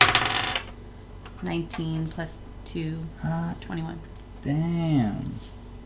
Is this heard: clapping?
no